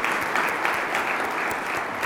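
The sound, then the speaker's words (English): An audience applauds panelists after a panel discussion, with steady, dense clapping that continues at an even level throughout. “Round of applause for the panelists.”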